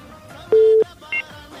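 Telephone tones as a call is dialed on a phone line: a longer, lower tone and then a short, higher beep, each standing clearly above a quiet background.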